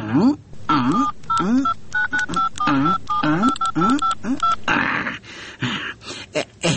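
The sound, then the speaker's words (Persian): Touch-tone keypad dialing on a telephone to place a call: many short, sharp paired beeps in quick succession, fairly loud and evenly spaced, followed by a brief burst of broader noise. “تو باش که زنگ بزنم.”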